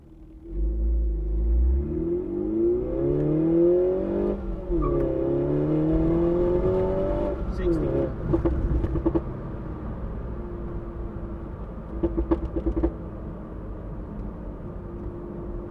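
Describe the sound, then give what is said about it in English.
A car accelerating from 0 to 60 with the windows closed: engine revs climb steadily in pitch, drop at a gear change, climb again, then settle into a lower, steady drone with a few sharp clicks and knocks. “So now what you're going to hear next is me doing a 0 to 60 in this. So let's cut right to that. Okay, here's 0 to 60 with the closed windows.”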